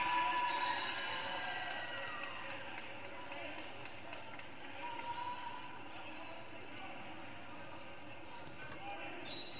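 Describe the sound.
A basketball bounces before a free throw in a high school boys' game, Columbia Central against Rossview, in the third quarter. A few dull, thudding dribbles sit under a constant murmur of crowd noise.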